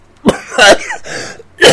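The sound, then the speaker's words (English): A voice imitates a cough, producing a few harsh, throaty hacking bursts with a rasping sound between them, loud and alone without other talk. “I have a cough, doctor, I have a cough.”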